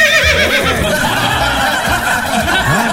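A horse's neigh sounds as a loud, wavering whinny with quivering, rising and falling pitch that runs through the whole clip.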